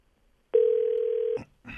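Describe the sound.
A telephone call tone sounds as a single steady, mid-pitched beep lasting under a second. It is cut off by a click and a short burst of noise.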